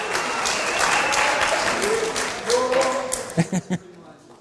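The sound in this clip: Audience applause welcomes a speaker at a morning gathering: steady, dense clapping that tapers off, followed by three low soft thuds.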